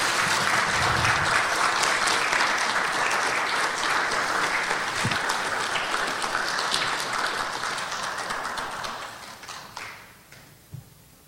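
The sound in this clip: Audience applause welcoming Dr. Charles H. Long: loud, dense, sustained clapping that holds steady for most of its length and then thins and fades out near the end.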